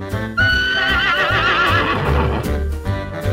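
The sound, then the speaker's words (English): A horse whinnies loudly in a long, quavering neigh that wavers in pitch and then trails off, over low, hoof-like thuds. “Horse.”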